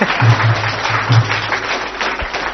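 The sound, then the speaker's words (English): Audience applause for a robot, a brisk, dense patter of many hands clapping at fairly even loudness for a couple of seconds. “A round of applause for our robot.”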